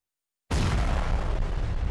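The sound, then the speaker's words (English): A sudden, heavy explosion from an Israeli bombing of Hamas tunnels in northern Gaza. It bursts in after a brief silence and continues as a dense, loud, sustained roaring rumble to the end. “A massive Israeli bombing in northern Gaza turns an extensive network of Hamas tunnels into dust.”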